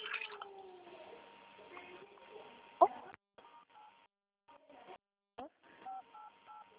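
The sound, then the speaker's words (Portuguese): Phone keypad buttons pressed during a phone call: a voice on the line comes first, then a series of short, clear touch-tone beeps separated by brief silences. “Eu não entendi porque você estava apertando botões e fez barulho.”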